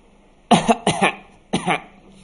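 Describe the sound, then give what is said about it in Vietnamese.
Dry coughing from a man: three sharp, harsh bursts, the first two quick and each with a double hack, then a short pause before the last. “gương mặt Rob tái nhợt ho khan lên”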